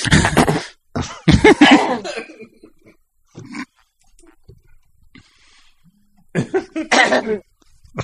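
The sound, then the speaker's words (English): Someone clears their throat in several harsh, raspy bursts, with a few fainter rough grunts in between and short silences separating the groups. “I'm clearing my throat.”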